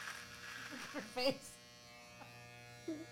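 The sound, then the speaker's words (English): Poorly performing electric hair clippers shave with a steady, faint buzzing hum that runs throughout, underneath people talking. “Shit, those clippers suck.”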